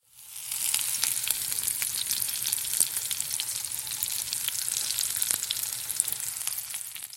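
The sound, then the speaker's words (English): Food sizzles and fries in a pan, a steady, bright hiss of hot fat scattered with many small crackles and pops, holding at an even level throughout with no talking. “This was the sound of something sizzling and like frying up.”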